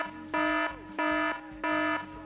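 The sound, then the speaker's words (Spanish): A loud alarm buzzer blares in three even bursts. Each is a harsh, steady electronic tone of about a third of a second, separated by short silent gaps, with no voices. “Es que muy, muy cutre, así que necesitamos una que suene con fuerza.”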